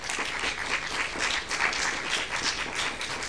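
Lecture audience applause welcoming a professor to the stage, a full, continuous round of clapping from many hands that stays even in loudness throughout.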